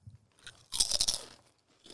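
Someone crunches folded 'double' carnitas street taco flavored chips, which are pork-flavored: a dense burst of crisp bites and chewing, with fainter crunches before and after, and no talking.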